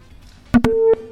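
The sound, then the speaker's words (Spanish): Telephone line clicks as a call is cut off: a few sharp clicks, then a steady, slightly buzzy tone holds for about a quarter second before stopping abruptly. “Bueno, se cortó por ahí la comunicación, pero muy amables por estar marcando nuestra línea telefónica en esta mañana.”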